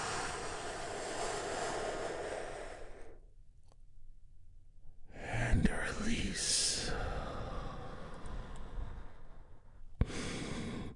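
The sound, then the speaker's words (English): A great big deep breath taken in and let out: a long airy inhale, a short pause of near silence, then a long breathy exhale. “As we get started by taking a great big healing breath all together, here we go”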